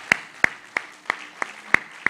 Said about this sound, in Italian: Grazie, un applauso lo facciamo noi a voi.